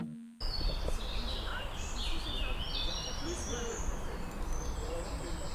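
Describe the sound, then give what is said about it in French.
Birds chirping and singing in high bursts over a steady rumble of passing cars and indistinct background chatter of people, continuous throughout after a brief quiet start. “je sais pas si vous entendez, mais c'est le bruit des oiseaux avec un peu les voitures derrière et des gens qui discutent.”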